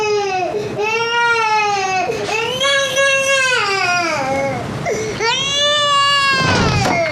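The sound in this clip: A baby cries after waking up, with loud, high wailing in long drawn-out bursts broken by brief catches of breath, continuing throughout.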